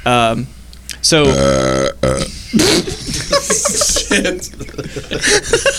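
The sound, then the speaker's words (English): A loud, low, rasping burp blasts straight into a microphone with no pop filter, lasting well over a second, then chuckles and people talking follow. “The one time I give this man a mic with no pop filter, and he burps right into it.”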